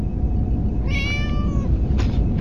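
A cat gives a single clear meow, rising and falling briefly over a constant low rumbling background.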